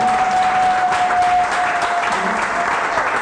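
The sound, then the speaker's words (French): Congregation applauding in church: a dense, steady wash of clapping runs through the whole stretch, with a faint sustained tone above it. “Est-ce que tu peux acclamer le Seigneur pour ta vie”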